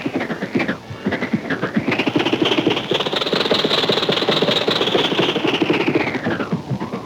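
An old 1927 Maxwell car engine running with a continuous, rough, sputtering rumble. The note climbs and holds higher through the middle, then drops back near the end, with no voices.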